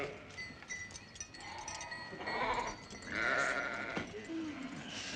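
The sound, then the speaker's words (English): Sheep bleat while the flock is watered at a well: a few wavering, nasal calls rise over a steady, noisy background. “Drive back your goats until the sheep are watered.”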